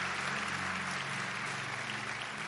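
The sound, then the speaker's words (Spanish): Dense, sustained applause from an audience responding to a call during a sermon, with an even clapping texture throughout and no pauses. “dele el mejor aplauso al Rey de Reyes y Señor de Señores”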